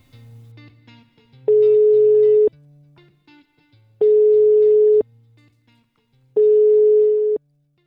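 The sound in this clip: Ringback tone of an outgoing telephone call: three long, even, identical tones separated by regular pauses, loud and steady, with faint low sounds in between.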